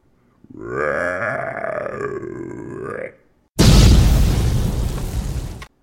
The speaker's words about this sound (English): Toku King fired his Dino Blade Blaster at the amphibious abomination, blowing it to smithereens.